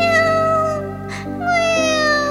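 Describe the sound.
A kitten's drawn-out meowing, tied by a string around its leg: loud, steady-pitched harmonic cries that pause briefly in the middle and then resume.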